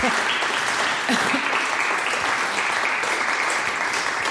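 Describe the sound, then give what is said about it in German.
Audience applause at a live evening event: dense, continuous clapping that holds at a steady, loud level throughout the few seconds. “schon mit Applaus begrüßt? Nein, jetzt.”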